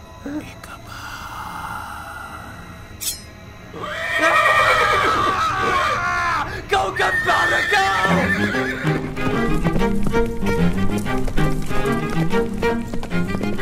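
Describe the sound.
A horse galloping and neighing, with a loud whinny and a fast clip-clop of hooves over a busy, continuous background.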